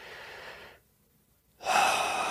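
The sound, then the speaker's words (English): Deep breathing during a relaxation exercise, with belly and chest inhales and slow exhales: a soft airy breath, a short silent pause, then a louder, fuller rush of breath. No talking. “So breathing in, belly and chest with a slight arch in your back. And then compressing slightly as you exhale.”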